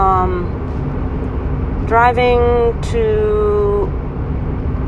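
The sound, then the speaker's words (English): A car being driven on a Monday evening, its steady low road rumble running underneath a person talking throughout. “Monday evening. I'm driving. I don't know if you can hear the noises in the background,”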